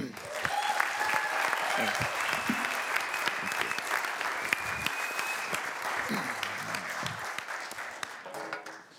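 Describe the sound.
A church audience gives a warm round of applause to welcome a guest speaker, sustained dense clapping with a few cheers for about nine seconds before it thins and tapers off at the end.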